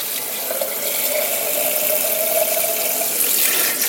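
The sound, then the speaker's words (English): Tap water running into a sink while a whole raw chicken's cavity is rinsed, a steady splashing hiss with a thin whistling squeal running through it for several seconds. “So now let's turn off the water, let that continue to drain.”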